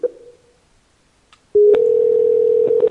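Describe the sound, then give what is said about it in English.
A telephone dial tone after a call is hung up: a short tone fades into near-silence, then a click brings a loud, steady, continuous low hum broken only by a few small clicks. “Oh, I guess hang up the fucking phone, then.”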